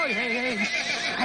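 A Clydesdale horse beside a horse-drawn carriage lets out one loud, brief whinny with a quavering, wavering pitch.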